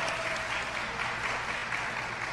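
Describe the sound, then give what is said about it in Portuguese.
Audience applause rolls on as a soft, even wash of many hands clapping, with no distinct peaks or pauses. “Os aplausos, cadê? Esquenta aí.”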